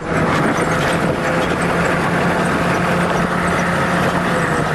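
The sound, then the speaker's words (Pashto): A vehicle engine runs steadily on a trip toward Marja district, giving a constant, dense rumble and hiss that holds one level from start to finish with no breaks. “یو موټر په غږ پیلېږي”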